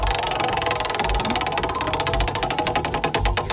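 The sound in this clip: A prize wheel spins on a country music trivia game, its pointer making a rapid, even run of many loud ratcheting clicks over a low rumble.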